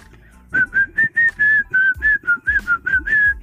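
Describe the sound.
A person whistles the signature tune of a Bollywood film song, a clear, high melody of many short notes with a few held longer, rising and falling slightly in pitch, heard alone.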